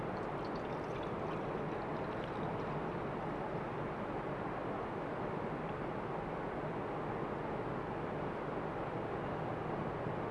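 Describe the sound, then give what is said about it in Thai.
Water poured into two measuring cups, heard as a quiet, steady pouring rush that continues evenly through the whole clip with no voices. “นะครับเราเติมน้ำลงไปที่2ถ้วยตวงนะครับเราก็ดูว่านะครับตรงตามที่เราต้องการหรือเปล่านะครับครบ2ถ้วยตวงนะครับเราเทลงไปที่หม้อ”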